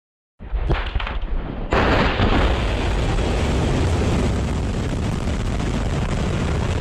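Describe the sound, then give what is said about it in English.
Loud roaring blast noise from Russian airstrikes on Kyiv aimed at donated tanks and Western military supplies: an abrupt onset of dense rumbling, jumping louder partway through, then a sustained, unbroken roar to the end. “that's the sound of Russia taking aim Sunday at Western military supplies for Ukraine, launching airstrikes on Kiev that it claimed destroyed tanks donated from abroad.”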